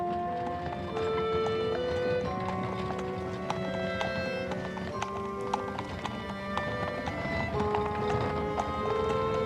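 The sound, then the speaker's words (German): Horse hooves clip-clop steadily as a horse-drawn hansom cab moves along, an even, unbroken rhythm that stays fairly quiet throughout. “Weiter und weiter rumpelte der Hansom, fuhr mit jedem Meter langsamer, wie ihm schien. Er schlug die Klappe hoch und rief dem Mann zu, er solle schneller fahren.”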